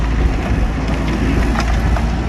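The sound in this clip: A mini excavator engine runs on the red trail of a ski resort bike park during construction work, a loud, steady low rumble that holds without a break.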